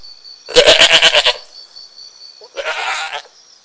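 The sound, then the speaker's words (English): A goat bleats twice, the first cry longer, loud and quavering in rapid pulses, the second shorter and softer after a brief pause. “Kambing. Kambing. Goat. Goat. Ghanamun. Ghanamun.”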